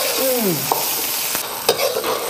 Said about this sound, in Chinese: 麻虾不可以先下锅，因为麻虾的体积很小，时间长了以后它就碎了，要慢慢的搅拌，油温不能高